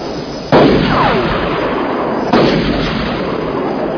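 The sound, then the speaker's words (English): Two loud gunshots fired toward people out in a field, each a sharp crack trailing into a long rolling echo, the second coming about two seconds after the first. “Shooting at us again.”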